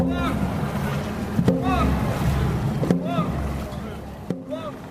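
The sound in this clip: A dragon boat crew paddles backwards through water, with a few regular paddle strokes about every second and a half over a steady wash of water, and voices calling out.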